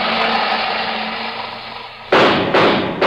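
Revolver gunshots ring out as two loud, sharp cracks close together near the end, after a steady hiss that fades slightly, with another burst starting just as it ends.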